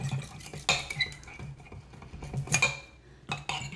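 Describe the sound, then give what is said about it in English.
Eggs are whisked in a bowl with a press-down whisking gadget until the yolks break up. A few irregular clinks and taps of the utensil against the bowl ring out between quieter stirring, with no talking. “Just gonna whisk it till the yolks are broken up.”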